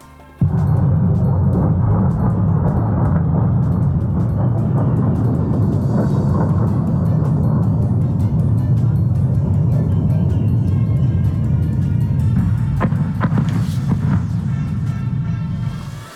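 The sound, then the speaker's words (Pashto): Military aircraft roar overhead during an air strike near Damascus, Syria, a loud, steady, low rumble that holds unbroken for the whole stretch with no voices. “دا د هغه الوتکو ژغ چې رویټرز اژانس ثبت د دوی ژغونه ثبت کړي دي چې تقریبا نیم ساعت مخکې د سوریې مرکز دمشق ته نږدې حمله کولې”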